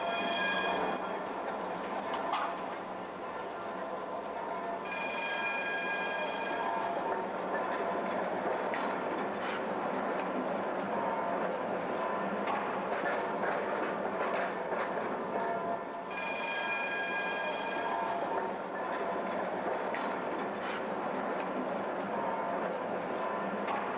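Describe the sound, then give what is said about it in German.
Tram passing directly across a market square: a steady rolling rumble throughout, broken twice by a few seconds of high, ringing tone. “Achtung, hier fahren die Bahn direkt über den Marktplatz. Da muss man ganz schön in alle Richtungen gucken.”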